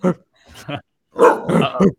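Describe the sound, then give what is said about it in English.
A small dog barking in a few sharp, excitable bursts separated by short gaps, loud and up front. “Here's my psychotic little dog.”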